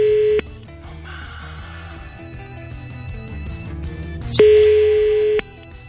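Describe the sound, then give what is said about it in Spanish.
A telephone call tone on a call to a home number sounds briefly at the start and again for about a second near the end. The steady, even tone rises above continuous background music. “A ver, vamos a marcar a la casa.”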